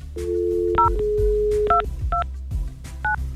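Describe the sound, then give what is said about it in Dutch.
A family's landline number being dialed for a call to Howard: a steady dial tone, then four short two-tone keypad beeps at uneven intervals over a low background hum. “dan ga ik gewoon een vast nummer bellen van de familie in Howard”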